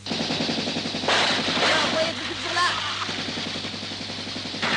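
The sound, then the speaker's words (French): Gunfire crackles in rapid bursts, rattling like a machine gun, as soldiers open fire on a colonel's order. Loud, dense firing runs over a steady droning background. “On tire, à vos ordres.”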